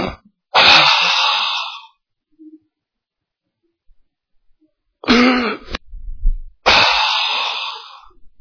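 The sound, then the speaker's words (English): A voice imitates the labored, rattling breathing of a dying person: three loud, harsh, raspy breaths separated by long pauses, with a brief low gurgling rattle before the last one. “you know that rattling that comes in, and you know that laboring of breathing, and sometimes they'll go,”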